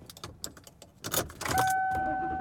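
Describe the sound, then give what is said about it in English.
Car sounds as the driver heads home: a few light clicks and jangling keys, then the engine comes up into a steady, louder hum with a faint whining tone over it. “And I am driving home.”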